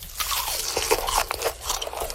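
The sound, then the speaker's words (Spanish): Crunching of crispy pork skin seasoned with salt, pepper and lemon, a dense run of many brittle, crackling crunches and bites that are loud and continuous, with no talk. “salpimentando un poco y dejando el toque de limón para que quede así como un crunchy delicioso. No sé si ustedes han escuchado acá, pero suena algo así.”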